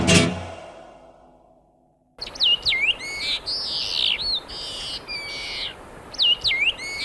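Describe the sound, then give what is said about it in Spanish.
Whistled calls of a long-tailed meadowlark (loica), a small grey ground-nesting bird with a red belly, follow a fading tone: many short swooping phrases repeat over a steady background hiss. “Loica, ave pequeña de color gris, de poco más de 25 centímetros. Es característica por su vientre colorado.”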